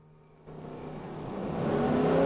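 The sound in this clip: A manual-transmission car speeds along a road, its engine a loud, steady hum that steps up suddenly, then climbs gradually in pitch and loudness as it accelerates.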